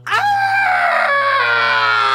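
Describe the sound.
A woman shrieks in pain in one loud, piercing scream that holds high and steady for about two seconds.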